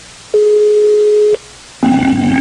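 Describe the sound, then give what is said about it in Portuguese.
Telephone busy tone after a dropped call during a prank call: one steady, mid-pitched beep lasting about a second, a short gap, then a louder, buzzier tone that runs on to the end. “Alô? Alô, a ligação caiu”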